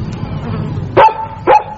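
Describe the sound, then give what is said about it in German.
A dog barks twice, two short, sharp, loud barks about half a second apart over a low, murmuring background. “ist das dein Hund? Ja, wieso? Ja, das ist der Hund.”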